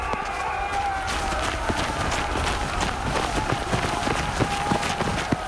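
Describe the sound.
Horses gallop as riders flee attackers among rocks, a steady, dense drumming of many hoofbeats over a loud, busy wash of noise lasting the whole clip.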